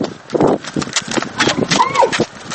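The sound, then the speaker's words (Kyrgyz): Hooves clip-clop as a boy rides a horse while leading a camel. The hoof strikes come in a steady, uneven run, with voices talking throughout. “Алдыбыздан ат минип төөсүн жетелеген бала чыкты.”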